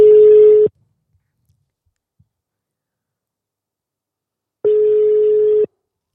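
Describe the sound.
Ringback tone of an outgoing telephone call ringing out: two steady, low-pitched tone bursts, each under a second long, separated by several seconds of silence.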